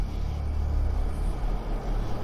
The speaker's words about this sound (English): car slowly motors down a narrow country lane.